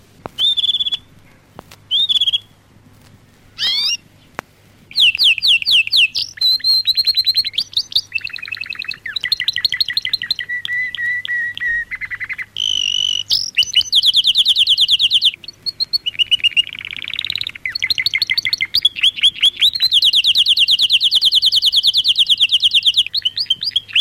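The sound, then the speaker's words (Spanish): A canary sings from a record in a long, lively run of high, varied trills, chirps and whistles. After a few short opening phrases, the song pours out almost without a break, loud and shifting in pitch. “Los pájaros cantan para usted. Vamos a oír al canario Smet.”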